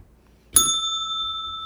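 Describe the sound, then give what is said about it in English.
A single bright bell strike rings out, its clear high tones sustaining steadily after the initial hit and slowly fading over faint background noise. “Okay, now where were we? I can't even ring the bell, it's been so long.”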